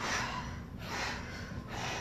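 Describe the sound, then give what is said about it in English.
Three forceful breaths blown out through the mouth during a guided breathing exercise: breathy, hissing bursts, each about half a second long, one after another with no talking. “blow the breath out through the mouth 3 times as you come forward”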